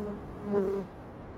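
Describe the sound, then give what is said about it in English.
A bee buzzes in one short, faint, droning burst that swells briefly and then fades, heard alone. “You got a bee crawling on you.”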